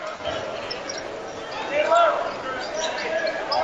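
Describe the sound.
A basketball is dribbled on a high school home court during a girls' game, its bounces mixed into steady crowd chatter and noise from the gym.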